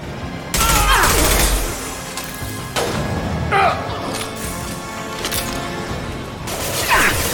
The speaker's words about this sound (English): we're shooting the mercenaries in the back